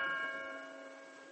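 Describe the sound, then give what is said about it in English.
A new bell tower strikes three o'clock. One ringing stroke of the bell holds a steady, rich tone that slowly fades. “when it struck 3 o'clock on the new bell tower.”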